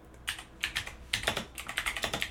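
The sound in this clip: Rapid clicking of a computer keyboard as someone types a Google search, arriving in several quick bursts of crisp keystrokes separated by brief pauses, with the last burst the longest and most even.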